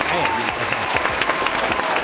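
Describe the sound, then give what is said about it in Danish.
An applause sound effect plays in a radio studio, a dense, even clatter of many hands clapping that holds steady at a fairly loud level while people talk over it. “Kan du ikke lige smide sådan en klapsalve på? Jo, det kan jeg let. Kan jeg ikke lige finde den rigtige klap?”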